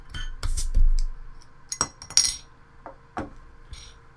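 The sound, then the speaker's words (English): Opening a beer, No Man's Sky Pale Ale: a few sharp metallic clinks and taps ring out with quiet gaps between them, with no voices. “So, it's 6.1... percent alcohol and 81 IBUs, and I already know it's good, so I'm gonna crack it.”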